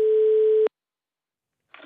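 A telephone line gives a single steady tone while someone calls a lift technician. The clean, unbroken tone lasts under a second and is followed by silence, with a brief faint noise near the end.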